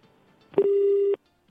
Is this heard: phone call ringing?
yes